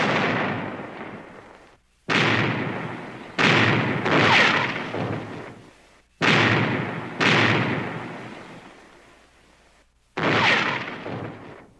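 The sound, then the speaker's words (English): A ship's cannons fire a broadside as a series of heavy, booming blasts, each one sharp at the start and trailing into a long, rumbling decay. Some shots come in quick pairs, others after pauses of a few seconds. “Give 'em another broadside! Pound 'em, lads! Pound 'em!”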